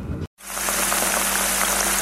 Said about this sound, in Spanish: Empezamos sofriendo la cebolla.